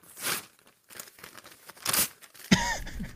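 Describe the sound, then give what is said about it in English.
Paper tearing as a mock draft is ripped up: a few rough, crinkly ripping bursts separated by short pauses, ending in a louder, longer tear. “Dan freaking Campbell and Brad always open for business Holmes ripping up your mock draft, ripping up my mock draft”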